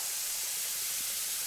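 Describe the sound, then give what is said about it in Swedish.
Cooking cream poured into a hot pan gives a bright, steady sizzling hiss that stays even and unbroken for the short moment, with no voices. “Så jag häller i den matlagningsgrädden.”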